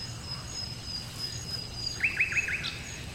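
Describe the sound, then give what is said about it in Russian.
A nightingale sings its first song of the year, a short run of quick, high chirping trills rising out of a faint, steady background hiss. “Соловей. Первый раз в этом году запел.”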